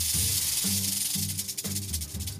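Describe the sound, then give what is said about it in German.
A snake hisses to scare off an enemy, giving steady breathy hissing that swells in a few pulses. A low, pulsing hum runs underneath throughout. “Schlangen können zischen oder fauchen, um den Gegner abzuschrecken.”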